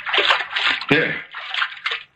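Canoe paddle strokes splashing and sloshing through water: a series of loud, rhythmic surges of churning water, then a brief moment of quiet at the end.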